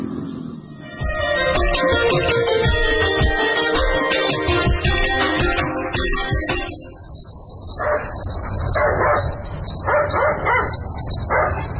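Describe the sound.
Dogs barking at night over a steady high chirp of crickets; a few short barks repeat in the second half, moderately loud.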